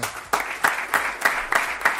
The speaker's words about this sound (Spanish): No estamos acostumbrados a que concluya una rueda de prensa entre aplausos.